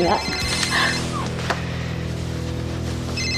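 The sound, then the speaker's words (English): A cell phone rings with bright electronic tones at the start, then rings again briefly at the end, over a steady low hum. “Who's the girl calling your cell phone?”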